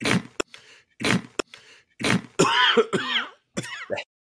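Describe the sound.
A voice deliberately demonstrates throat clearing and coughing from sour beer caught in the throat: a few short, sharp coughs, then longer gravelly, rasping throat-clearing sounds, moderately loud with no talk.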